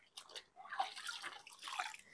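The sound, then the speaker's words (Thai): Faint sloshing and splashing of cloth being washed in water with alum, as a steady, uneven stream of watery swishes with no voices. “ก็เหมือนเดิมนะคะล้างจนกว่าน้ำจะใสนะคะท่านผู้ชม”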